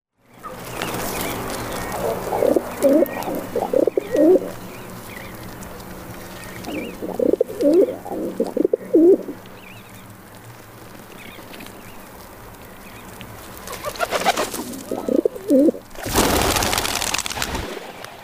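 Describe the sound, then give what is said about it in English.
A rock pigeon coos in three low, throaty phrases separated by quiet gaps, followed by a brief burst of noise near the end. “Rock pigeon.”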